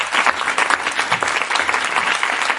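An audience applauds with dense, steady clapping that stays at an even, fairly loud level from start to finish.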